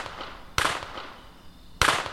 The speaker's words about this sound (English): Three more shots ring out. They're closer. They're way closer now.